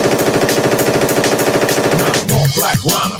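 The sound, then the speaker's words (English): Rapid machine gun fire: a loud, fast, evenly paced stream of shots lasting about two seconds, then breaking into a rougher, lower rumbling noise. “Shoot your guns in the air. Three times in the air. Shoot your guns in the air, machine gun.”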